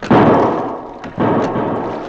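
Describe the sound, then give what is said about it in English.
Two loud gunshots ring out on a schooner's deck in a radio drama, each a sharp burst with a long fading tail, about a second apart. “Somebody's shooting on deck.”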